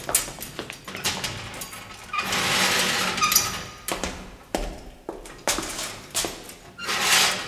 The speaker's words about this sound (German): Angeln kreischten, Riegel klirrten, dann war es still.